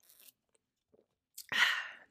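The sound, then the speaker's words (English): Someone sips a Celsius energy drink: a few faint small clicks, then a brief sharp sound and a louder half-second slurping sip, quiet otherwise and without talk. “let me take a sip of this Celsius.”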